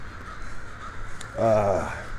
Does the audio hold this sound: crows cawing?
yes